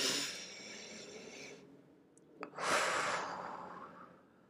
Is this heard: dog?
no

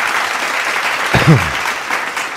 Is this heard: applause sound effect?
yes

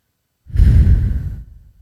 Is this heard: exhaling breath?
yes

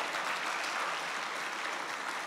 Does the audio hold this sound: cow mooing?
no

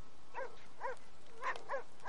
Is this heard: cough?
no

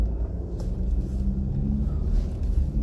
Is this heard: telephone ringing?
no

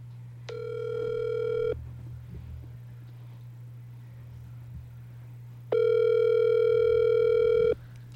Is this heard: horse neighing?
no

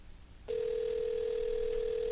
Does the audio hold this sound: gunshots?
no

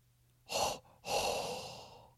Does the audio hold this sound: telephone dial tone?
no

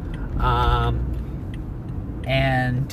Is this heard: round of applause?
no

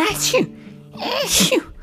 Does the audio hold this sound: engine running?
no

